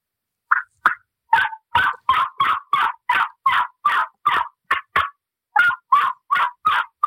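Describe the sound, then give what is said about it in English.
Loud turkey yelps produced by a person on a modified cutter mouth call, imitating a hen turkey. A long, rhythmic series of sharp, raspy notes runs in quick succession, breaks off briefly near the middle, then resumes at the same pace. “I'm going to do some yelp, some regular yelping. I'll give you an example about toning it down and learning the softer stuff. This is the louder yelping.”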